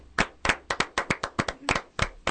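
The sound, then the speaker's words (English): A golf clap from a small live audience: a thin scattering of separate hand claps, over a dozen, in an uneven, loose rhythm. Each crisp slap stands alone against a quiet background, with no cheering or voices. “That was a very ecstatic golf clap we just gave you.”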